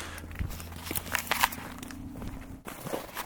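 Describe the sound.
Footsteps of people walking outdoors at night under an overcast sky: soft, irregular treads over a quiet low hum, with no talking.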